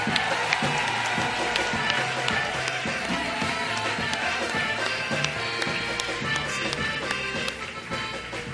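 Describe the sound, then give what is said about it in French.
A church audience cheers and claps to acclaim the Lord, a steady, loud wash of voices with rhythmic hand claps running throughout. “Est-ce qu'on peut encore acclamer le Seigneur?”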